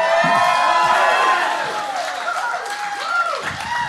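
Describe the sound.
A live show audience at the Buttonball Barn in South Egremont, Massachusetts, cheers loudly: whoops and shouting rise over continuous clapping in a dense crowd roar that eases slightly midway, then swells again.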